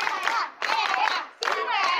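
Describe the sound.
A class of pupils applauds in three short rhythmic bursts of clapping mixed with their chanting voices.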